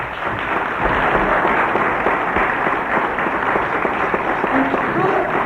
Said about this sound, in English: Give them a clap.